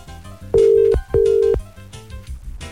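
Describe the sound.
Two steady telephone ringback tones, each under half a second with a short gap between them, sounding over background music.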